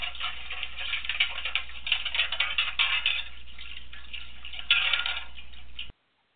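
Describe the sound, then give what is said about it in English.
Metal plates clatter and clink as they are washed in a metal wash tub on a stove, a dense, continuous jumble of clanks and splashing with no talk, cutting off abruptly at the end. “But if you hear that sound, which is yes. the noise made by washing metal plates in a metal wash tub on the stove, then you know it's time for a little housekeeping.”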